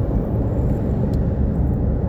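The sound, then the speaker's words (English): Two J.B. Hunt trucks drive past as a steady, loud, low rumble of engine and road noise, with no voices. “Two trucks just went by, J.B. Hunt, right after, not related.”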